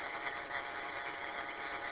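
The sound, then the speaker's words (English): Faint steady hum of a running pump, a continuous low mechanical drone with an even, unbroken texture and no voices. “Some pump keeps kicking on and off, so that's good.”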